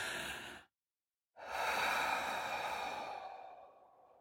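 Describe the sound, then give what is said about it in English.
A deep breath, taken deliberately: a short breath, a brief silence, then a long, steady, drawn-out breath that fades slowly toward the end. “I mean, literally, let's take a breath.”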